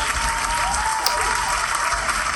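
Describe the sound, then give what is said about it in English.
Applause greeting a wrestling icon as a guest: a loud, even wash of clapping that fills the whole clip, with a faint voice briefly over it. “Oh, Lord. Wait. My applause. His applause.”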